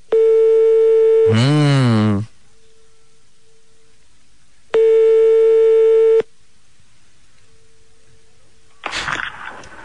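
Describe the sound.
Ringback tone from a telephone call to a small hotel: two long, steady tones separated by a silent gap, followed by a short burst of noise at the end.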